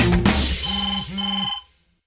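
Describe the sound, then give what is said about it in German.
A mobile phone rings with a bright electronic ringtone: a burst of busy tones, then two warbling, pulsing chimes of equal length, before the ringing stops abruptly and leaves silence. “da blinkt der Felix auf meinem Handy.”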